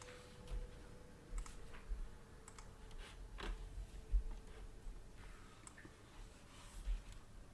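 Typing on a computer keyboard, faint, irregular key clicks with a few slightly louder keystrokes spread through the quiet.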